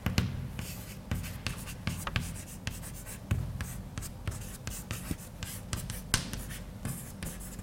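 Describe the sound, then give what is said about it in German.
Chalk or marker scratching on a board during a physics lecture: many quick, faint strokes and taps in an irregular rhythm, with a soft scraping texture throughout. “Dann schreibe ich mal hin.”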